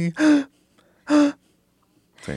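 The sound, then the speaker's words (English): A singer takes audible breaths, intoning the inhale so each breath carries a voiced pitch. Two loud breaths are separated by silence, and a third starts at the very end. “If you could tell where I took a breath, there it is, right?”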